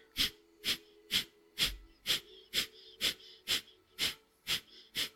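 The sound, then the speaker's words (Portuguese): Sharp nasal breaths from an alternate nostril breathing exercise, inhaling and exhaling in a steady rapid rhythm of about two per second. Each breath is a short, hissy, airy burst at an even loudness, with no voices. “vamos fazer a mão direita, o dedo direito ainda está aqui na narina direita. Vamos fazer a segunda vez agora. Inspira meio caminho. Podes ir aumentando as expirações e começamos.”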